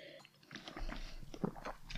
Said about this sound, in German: zuerst einmal einen kleinen Schluck vom Wein zum nehmen. Auf alle Fälle, ja. Ja. Hey, Eden Valley Riesling, man hört so viel davon und ein richtiger Klassiker, aber probieren tut man sehr selten.